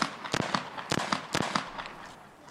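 Gunshots fired by a police officer at a man on an asphalt street: three sharp, loud bangs spaced roughly half a second apart, with a few fainter pops around them and a quieter tail.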